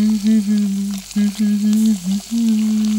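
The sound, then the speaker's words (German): Fried eggs sizzle in a pan in a kitchen: a loud, continuous crackling hiss with a few brief dips in level and no voices. “brutzelt Spiegeleier”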